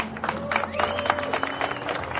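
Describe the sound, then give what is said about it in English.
Crowd applause at a motorsport race awards ceremony, honouring the race winners. Dense, steady clapping runs for the whole clip at an even level, with a faint tonal hum underneath. “And for our junior winner out here today, another round of applause for Maxim Direksh.”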